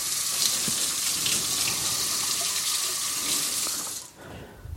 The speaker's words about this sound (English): I'm going to wash the oil off my hands.